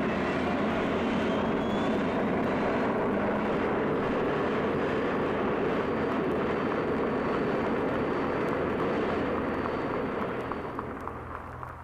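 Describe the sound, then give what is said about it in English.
Loud, sustained roar of an experimental turbine-powered race car engine, a dense jet-like rush with a thin high whine running through it, holding steady before easing slightly at the end. “That was the sound of the turbine experimental.”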